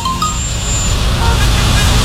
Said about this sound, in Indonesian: Aduh, macet lagi.